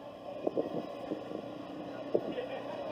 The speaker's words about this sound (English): Everybody trying to be out here. It's wind in these pop-up tents.